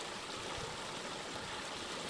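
Water running steadily from a pipe in the side of a mountain by a road, fed by an abandoned coal mine in Itmann, Wyoming County; a constant, even rush of flow and spatter with no voices.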